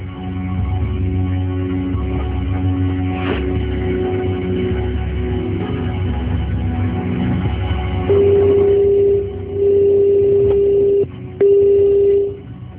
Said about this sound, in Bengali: ওকে, ফোনে কানেক্ট করতে চেষ্টা করছি